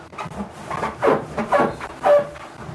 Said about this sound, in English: it's the sound of a dick being rubbed up against a balloon.